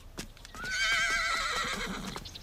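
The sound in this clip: A horse gives a long, loud, quavering whinny lasting well over a second, with a few hoof clops sounding before it and scattered hoofbeats continuing under and after the neigh.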